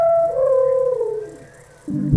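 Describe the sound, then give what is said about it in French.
An elephant trumpets and blows: a long tonal trumpet call slides down in pitch, followed by a short, loud, breathy blast. “Mais l'éléphant refuse et continue de barrir et souffler.”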